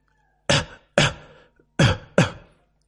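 Dry, violent coughing fit from an old man: four harsh, loud coughs in two closely spaced pairs, each a sharp burst that quickly fades, with no talk.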